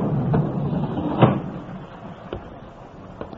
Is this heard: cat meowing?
no